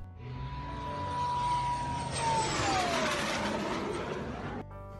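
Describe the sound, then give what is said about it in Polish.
An aircraft makes a low-pass flyover: a loud, broad engine roar swells toward the middle, while a high whine drops sharply in pitch as the plane goes by. The roar holds, then cuts off just before the end. “Chyba najbardziej imponujący low pass, jaki widziałem w życiu, połączony z salutem wodnym.”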